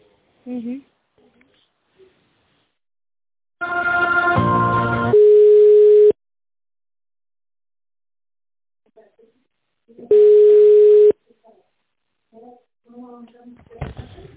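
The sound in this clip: Telephone line tones while a call is being connected: a buzzy harmonic tone runs straight into a steady beep, and after a pause a second long, steady beep sounds. Brief voice fragments appear between them.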